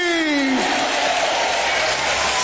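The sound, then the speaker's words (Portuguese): Church audience clapping in praise during a service. A steady, even wash of applause holds throughout, with a voice heard briefly at the start. “Aplaude a Jesus.”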